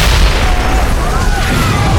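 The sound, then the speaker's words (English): A huge explosion on a mining town's main street roars as a deep, loud, sustained rumble that fills the whole stretch without letting up. “The power of the explosion cracked windows and sent some people stumbling off the boardwalk and into the street.”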